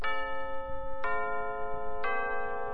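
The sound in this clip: A radio station's time signal chime rings out as three evenly spaced, bright bell-like tones about a second apart, each struck cleanly and leaving a sustained, harmonically rich ring that overlaps the next strike.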